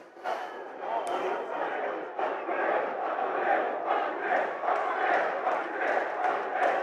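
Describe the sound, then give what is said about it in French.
Fans in a football stadium stand chant slogans together, a dense and rhythmic roar of many voices that is sustained throughout. “la tribune ouest se met à chanter quelques slogans”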